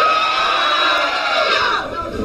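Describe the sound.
A crowd screaming and cheering at a party with bands: a loud, continuous wall of many voices that holds steady throughout and eases slightly near the end.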